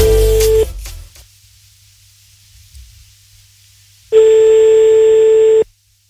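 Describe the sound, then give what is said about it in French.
Telephone line tones sound as a number is redialed after a hang-up: a steady electronic tone cuts off early, then a long quiet stretch follows before a second loud, even tone runs about one and a half seconds and stops. “Pourquoi il a raccroché? Recompose le numéro de téléphone.”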